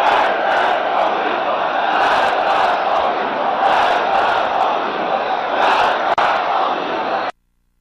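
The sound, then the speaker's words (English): A huge crowd roars at Ayatollah Khamenei's speech in Gilan-e-Gharb, Kermanshah province, Iran: a loud, unbroken mass of voices with repeated surges of shouting, cutting off abruptly at the end. “The leader was addressing a huge crowd in the Iranian city of Gilan-e-Gharb in western province of Kermanshah.”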